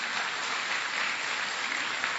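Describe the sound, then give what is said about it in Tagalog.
Applause from an audience during a church service, a steady, dense patter of many hands clapping throughout, even in loudness with no break. “Isa hong palakpak pa minsan sa ating Panginoon.”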